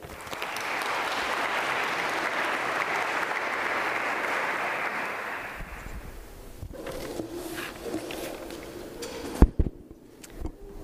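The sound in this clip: An audience applauds to welcome a Venerable Buddhist monk who is about to speak. The steady clapping dies away about halfway through, leaving quieter room noise and a few scattered knocks and thumps.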